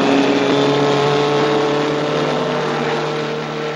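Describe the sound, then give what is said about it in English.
A car accelerates past two other cars, its engine a loud, steady droning roar that holds level and fades slightly toward the end, with no voices. “accelerates, passing two more cars”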